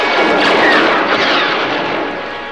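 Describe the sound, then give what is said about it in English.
Blaster fire in a gunfight with troops at a spaceport forms a loud, dense, continuous roar of rapid shots, steady at first and easing slightly toward the end. “Han Solo and Chewie exchange blasting laser fire with the troops”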